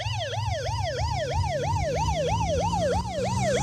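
An American emergency vehicle siren wails in a fast, even yelp, its pitch sweeping up and down about a dozen times in a few seconds. It stays loud and steady throughout, with no voices.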